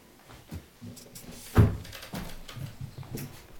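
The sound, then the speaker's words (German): A window being opened: one clear knock or thump from the frame or latch, surrounded by softer rustling and bumps, all fairly faint. “Aber lass uns mal noch das Fenster öffnen.”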